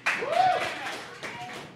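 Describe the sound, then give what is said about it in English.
Audience clapping in a poll for DC during a pop culture show: a short burst of clapping with a rising voice whooping over it, then quickly dying away. “Audience, I want you to clap if you're Marvel or DC. If you're Marvel. I see all of you. All of you. DC.”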